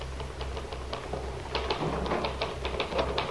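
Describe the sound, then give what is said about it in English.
Typewriter keys pecked out in an office in the evening: many quick, fairly loud clacks in an uneven rhythm over a steady low hum. “Lily Devon comes in, discovers him seated at his typewriter, pecking out his weekly society”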